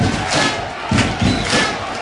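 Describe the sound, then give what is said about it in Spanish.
Football supporters of San Roque de Lepe protest in the stadium stands during a match against Las Palmas, a dense, sustained crowd roar that swells and dips in loudness without letting up. “Las Palmas, de nuevo se queja la afición del San Roque del Epe.”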